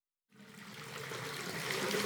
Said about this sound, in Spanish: ¡No puedo! ¡Estoy duchándome!